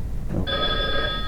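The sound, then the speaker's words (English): Old-style telephone bell ringing on a direct-dial line to a dispatch center. One bright, steady metallic ring starts abruptly after a brief pause and holds unbroken to the end, loud and alone. “If you pick up the phone, it starts to ring at the dispatch center. It's just a direct dial, and it's usually has that old style sound,”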